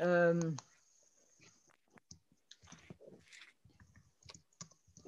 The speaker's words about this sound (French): Tu peux taper en même temps, quoi.